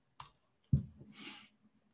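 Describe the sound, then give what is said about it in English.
A few sharp, isolated computer clicks made while copying and pasting text on screen, separated by short silences. “I'm copy pasting off screen. I can't type that fast.”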